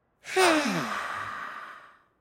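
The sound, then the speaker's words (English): A slow breath taken during a relaxation breathing exercise: one long, soft exhalation with a breathy, sigh-like voiced tone that gradually fades out, heard alone without any talk. “Let's breathe slowly in through our noses and breathe slowly out through our mouths.”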